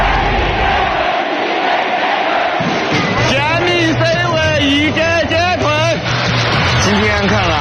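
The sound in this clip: Football fans roar in a stadium at a Sichuan Super League match, a dense, loud crowd din that swells into many voices chanting and shouting together.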